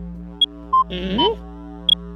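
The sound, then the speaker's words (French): Short electronic beeps from a keypad as an access code is entered, a few brief tones alternating between high and lower pitch. They sound over a steady tonal background with a brief burst of warbling sound in the middle. “Alors, je compose le code.”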